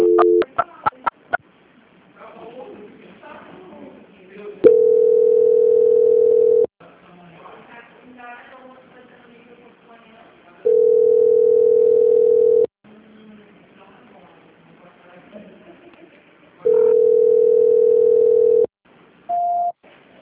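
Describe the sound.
Telephone line tones on a call being transferred: three long, steady, mid-pitched tones of about two seconds each, separated by quieter hiss, with brief tone blips at the start and a short final tone.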